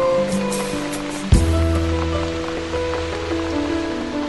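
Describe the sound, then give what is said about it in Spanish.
Rain falls on an autumn afternoon at home as a steady, even hiss throughout, with sustained low tones underneath and one dull thump early on. “¡Qué tranquila se está en casa! ¿Verdad que sí, Dina? Y sobre todo ahora, que está lloviendo.”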